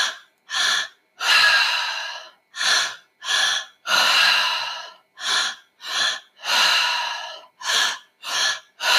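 Deep belly-and-chest breathing exercise: pairs of short, sharp breaths, each followed by one long sustained breath, repeating in a steady cycle. The breaths are loud, with no talking.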